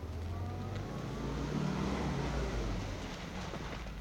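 A taxi pulls up, its engine giving a steady low rumble that swells slightly midway and then settles, with no voices heard.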